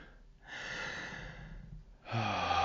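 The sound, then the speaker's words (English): Deep breathing: two long, airy breath sounds, the first soft and drawn out, the second starting louder after a brief pause, with no speech. “Take a big deep breath in”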